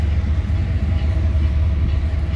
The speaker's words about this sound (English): And apologize for the train, but so